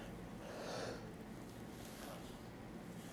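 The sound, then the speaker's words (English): A person yawns with one drawn-out, breathy swell near the start, fading into a steady hiss of background noise. “Sorry, I yawned.”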